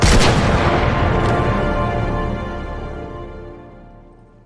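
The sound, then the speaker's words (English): A single loud gunshot rings out in a video game as a character shoots himself. A sharp, heavy blast is followed by a long rumbling decay that fades slowly over several seconds, with a faint second crack about a second in. “Oh, he's gonna shoot himself.”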